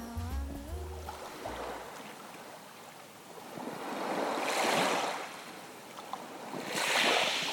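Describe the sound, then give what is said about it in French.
Sea waves surge and wash in soft, broad swells. Two gentle rises in loudness break the steady low hiss of the water. “Mais quoi ? Mais la mer, bien sûr.”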